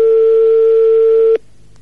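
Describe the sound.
Telephone ringback tone on an outgoing call during a phone prank game: a single steady, pure mid-pitched tone of about one and a half seconds that cuts off abruptly, with no voices.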